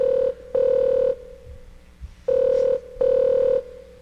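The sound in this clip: Ringback tone of a phone call to a pizza restaurant, waiting for someone to answer. Steady mid-pitched tone bursts come in two pairs, with a quiet gap of low rumble between the pairs.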